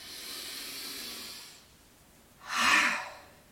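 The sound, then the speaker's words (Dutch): A deep inhale through the nose during a guided meditation: a long, airy hiss lasting about a second and a half, then a pause and a shorter, louder breath burst, with no talk. “En ik vraag je nog maar eens diep in te ademen door je neus.”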